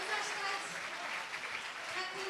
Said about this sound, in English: And there's jubilation around me, if you can hear. People are going berserk.